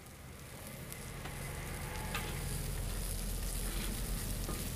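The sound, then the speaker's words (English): Sausages sizzling as they fry, German gourmet sausages cooking at a deli stall: a steady, bright crackling hiss that runs unbroken throughout, with no voices. “You can hear the wonderful sizzle there of sausage”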